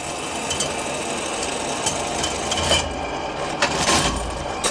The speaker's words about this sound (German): Diese Maschine misst die Fläche von Lederstücken, auch 125 Jahre später noch.